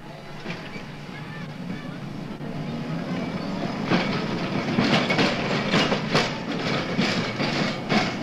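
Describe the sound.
An electric London tram pulls away over the track on its last run, a broad rumble that grows louder from about midway and brings a series of sharp clicks and clatters as the wheels cross the rails.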